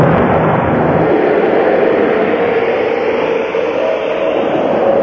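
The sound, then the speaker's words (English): A rocket is fired, heard as a loud, steady rushing roar that holds evenly without a break. “Fire. Oh, the rocket. Fire the rocket.”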